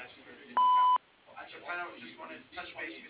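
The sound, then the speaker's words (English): A single voicemail message tone sounds, a clean steady beep lasting under half a second, after which a man begins speaking. “You may dial 0 at any time for immediate assistance or leave me a message at the tone and I'll return your call as soon as possible.”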